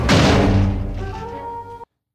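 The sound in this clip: An orchestral film-score hit synced to an on-screen fall: a loud, booming low impact that thins into a sustained tonal chord before cutting off abruptly.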